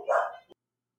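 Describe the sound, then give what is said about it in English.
A dog barks near the door of a home, one short sharp bark with a brief clipped tail, then silence. “Hey, you're home. Don't worry about the dog. Don't worry about it, man.”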